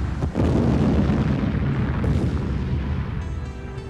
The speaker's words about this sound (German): Die Trucks krachten seitlich aufeinander, in voller Fahrt, direkt vor meinem Jeep. Ihre beiden Tanks explodierten in einem einzigen gewaltigen Feuerball.